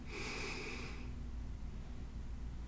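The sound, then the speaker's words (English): A deep inhale draws air in as a single breathy rush lasting about a second, then fades into a quiet, steady background. “Take a deep inhale.”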